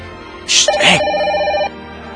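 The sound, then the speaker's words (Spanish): A telephone ringtone sounds once, a bright chiming burst with sustained ringing tones lasting just over a second, loud and alone before it cuts off. “me está hablando por teléfono.”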